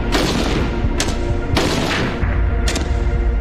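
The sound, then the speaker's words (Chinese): Gunfire from a Type 56 submachine gun shooting at beer bottles 100 metres away: three sharp, loud single shots spaced unevenly over a dense, steady background roar. “100米的距离射击啤酒瓶，五六式冲锋枪交出了5发4中的不俗成绩。”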